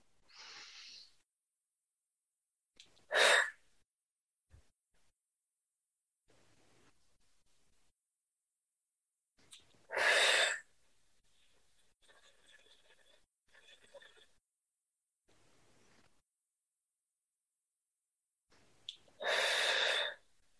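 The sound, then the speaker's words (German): Three loud, deep inhalations through the nose, widely spaced, come during a guided meditation with eyes closed. Faint, softer breathing sounds fall in the quiet gaps between them. “atme bitte dreimal ganz, ganz tief über die Nase ein.”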